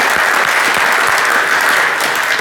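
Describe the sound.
A church audience applauds to welcome viewers joining the live-streamed gathering. The clapping is dense, loud and continuous, with no break.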